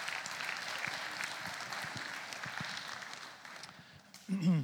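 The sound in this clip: A church audience claps to welcome a speaker, a dense, sustained wash of applause that thins out toward the end, when a voice briefly comes in.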